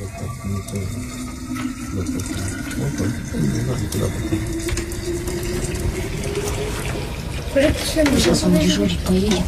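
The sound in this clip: Tea poured into a thermos in a snowy herding camp, a steady stream of liquid whose tone rises in pitch as the flask fills, heard under people talking.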